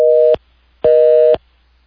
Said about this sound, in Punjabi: ਲੱਗਦਾ ਉਹਨਾਂ ਦੀ ਕਾਲ ਜਿਹੜੀ ਆ ਉਹ ਡ੍ਰੌਪ ਹੋ ਗਈ ਆ